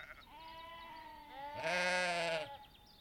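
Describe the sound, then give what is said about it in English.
Lambs bleat during lambing season with two wavering, nasal calls; a softer, longer bleat is followed by a louder, fuller one. “From what I can see, the lambs are looking pretty big and fat. They still want their mummies, though.”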